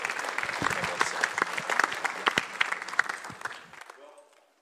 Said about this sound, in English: So why don't we put our hands together and welcome up Matt Chandler.